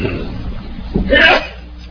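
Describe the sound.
A single sneeze bursts out just past the midpoint of a religious lesson, a short, sharp, noisy puff that follows a low murmur and fades into a faint steady background hum.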